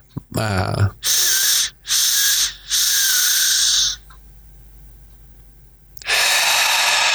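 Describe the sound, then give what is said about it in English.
Slow, deep breathing in a breathing exercise: after a brief voiced sound, three loud, airy breaths are drawn in, then a quiet held pause, then a long, loud exhale. “It's 3 in, 3 slow, deeper breaths in, and then we pause and we hold and we feel full. So it might be like this.”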